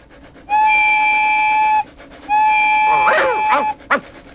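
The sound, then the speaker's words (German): A locomotive whistle gives two long, steady blasts, each over a second, with a brief voice-like sound breaking in near the end of the second blast. “Ist das etwa meine Lok?”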